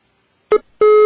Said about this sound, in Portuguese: tá caindo a ligação, novamente caiu a ligação